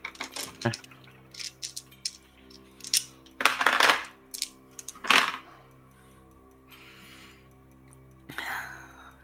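Dice being rolled, with a run of sharp rattling clicks and two louder bursts of tumbling clatter in the middle, over a steady low hum.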